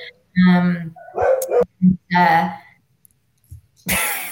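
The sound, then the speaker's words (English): A dog barks a few times in short, loud, separated bursts with quiet gaps between them. “that's my dog saying hello”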